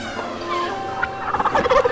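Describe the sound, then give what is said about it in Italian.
Turkeys gobble in quick, warbling bursts that get louder and busier toward the end, with several birds overlapping in a rough, bubbling chorus. “Turkey, il massaggio con tacchini. Coricati nella vasca e lascia che i pennuti con i coglioni in faccia si occupino di te.”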